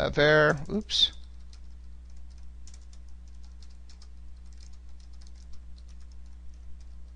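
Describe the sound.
Typing on a computer keyboard while coding a simple database query; a brief voice at the start gives way to many soft, rapid key clicks over a steady low hum.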